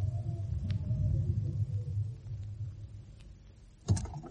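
A car with a roof rack pulls up and stops: a low engine rumble eases off and quiets over a couple of seconds, then a single sharp click sounds near the end.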